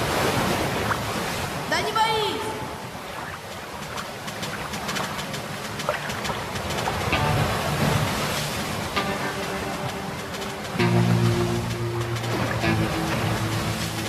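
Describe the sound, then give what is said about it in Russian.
Waves roll in beside a boat resting in shallow water, a continuous broad wash of surf that swells slightly louder near the end. “Сбоку накатывают волны.”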